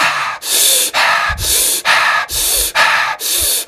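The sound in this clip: Fast rhythmic breathing exercise: many quick, even, loud breaths in a steady pulse with only short dips between them, no talking.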